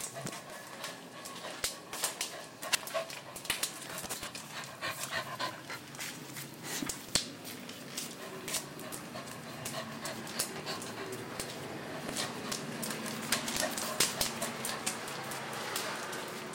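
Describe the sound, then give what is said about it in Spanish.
A thirsty small dog pants steadily in quick breathy puffs that run throughout, fairly faint, with scattered soft clicks and rustles. “Ese es el perrito, el pucherito. Y tiene sed también.”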